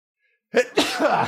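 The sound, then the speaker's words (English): A single sneeze: a quick breathy intake, then a loud, noisy burst that trails off, heard alone. “sneeze.”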